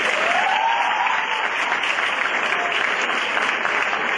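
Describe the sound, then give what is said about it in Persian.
Audience clapping at a talk: a steady, even patter of many hands applauding continuously with no break, loud and without voices over it. “البته میخواین دست بزنید؟ خب بزنید.”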